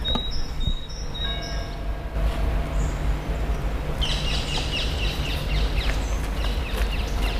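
Birds chirp and sing in a botanical garden in spring, with short high calls early on and a denser run of chirping later, all over a steady low rumble.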